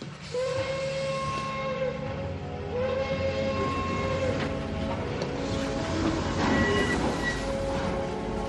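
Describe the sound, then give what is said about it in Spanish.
A train departing, its whistle sounding several tonal blasts over a continuous loud rumble and hiss of the moving train, steady in loudness throughout. “Pues que salga el tren. Adelante, que salga el tren.”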